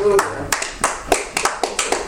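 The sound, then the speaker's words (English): A church audience claps hands in a steady, rhythmic series of sharp claps while voices carry on over them. “Come on. Give God a clap offer.”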